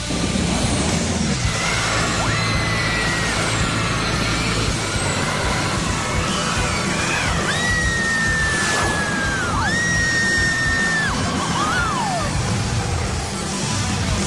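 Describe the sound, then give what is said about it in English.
A launched roller coaster at a theme park, with a rock-music theme and a launch from 0 to 60 in 2.8 seconds, makes a loud, steady roar. Several high, wavering, sliding tones ride over it without a break. “The launch alone is a thrill ride in itself. 0 to 60 in 2.8 seconds.”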